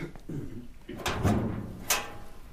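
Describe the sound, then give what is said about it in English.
A sergeant's locker being opened, with a soft clunk followed by a sliding scrape and a sharper knock of the door as it swings free. “Now, Sergeant Keel's locker, please”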